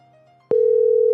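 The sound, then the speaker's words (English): Telephone ringback tone on a call to an old cell number: after a brief quiet stretch, one steady mid-pitched tone starts abruptly and holds loudly to the end. “Oh shit, that one rings.”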